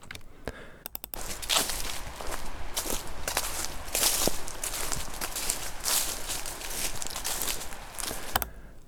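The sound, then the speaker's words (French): Footsteps walk through grass, producing a continuous stream of soft, crunchy rustles with many steps at an even pace. A few sharper clicks sound near the start. “Des pas dans les herbes. Ok, des pas dans les herbes.”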